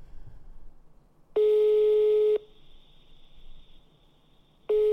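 A ringback tone plays while an outgoing phone call connects. One steady, single-pitched tone lasts about a second, followed by a long pause, and a second identical tone begins at the very end over faint background noise.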